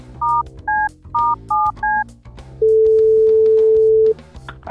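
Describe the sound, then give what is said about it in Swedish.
A telephone call is placed: five short dual-pitched keypad tones are dialed, then a single long, steady ringing tone sounds for over a second. “Jag måste ringa Brutti med en gång.”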